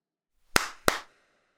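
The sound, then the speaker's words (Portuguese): Two sharp hand claps used as body percussion to imitate bats, crisp and loud against silence, spaced about a third of a second apart, each with a short ringing tail. “Vamos imitar os morcegos usando o nosso corpo como instrumento musical, batendo palmas,”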